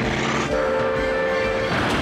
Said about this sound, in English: crashes through the barrier just ahead of a freight train.